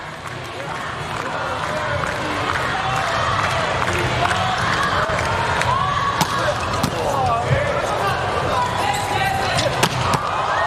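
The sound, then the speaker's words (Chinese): Ball strikes ring out during a Slovenia versus Japan volleyball match as a player serves. A few sharp hits come through a steady, loud crowd roar, and commentators talk throughout. “布兰纳特的发球。”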